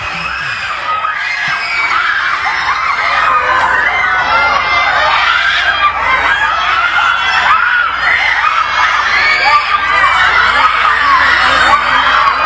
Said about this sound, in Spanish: guardaba silencio unos segundos para escuchar los gritos de los aficionados en cuanto Gilberto Mora baja del camión